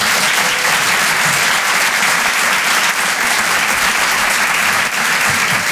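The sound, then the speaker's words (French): Audience applause at a live comedy club show in a theatre: a dense, loud wash of many hands clapping, steady and unbroken throughout. “Faites du bruit pour Harold Barbet.”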